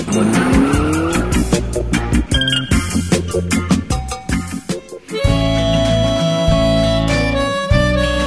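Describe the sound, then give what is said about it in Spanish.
Taxi car sound effect with loud screeching, skidding tires and a roaring engine, dense and continuous throughout, with a brief dip before the squeal and engine noise surge back. “¿Sabías que los que se reciben de ingenieros ya no son los que manejan taxis? Joya, ponga taxi.”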